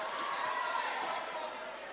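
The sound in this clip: A basketball is dribbled during a high school boys' game between Westwood and Escanaba. Steady bounces sit under constant crowd noise and a commentator's voice.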